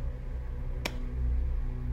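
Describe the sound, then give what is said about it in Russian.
A woman in a film scene claps her hands slowly, making two sharp, isolated claps about a second apart over a low, steady hum. “Лиа внимательно смотрит на Сьюзан. Начинает медленно аплодировать.”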